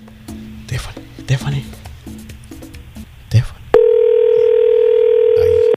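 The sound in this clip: An outgoing telephone call is dialed while a person talks over a few faint short tones. Then a loud, steady ringing tone takes over alone for the last two seconds.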